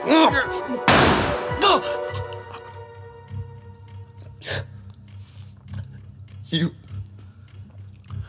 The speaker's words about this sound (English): Give me the gun!